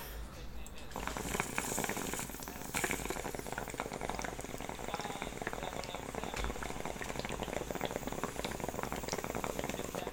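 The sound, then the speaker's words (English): Water bubbling steadily in a smoking pipe as someone takes a hit: a continuous, fairly quiet gurgle with a busy, fizzing texture that runs evenly for about ten seconds. “I'm gonna take a hit real quick, but you'll hear it.”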